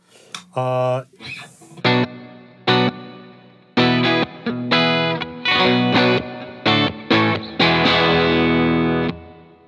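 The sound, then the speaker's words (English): Electric guitar played through a Boss RV-2 reverb pedal alone, with chorus and delay switched off: many loud strummed chords and notes, each ringing out in a big, wide wash of reverb before the next. “And so that's just the reverb by itself.”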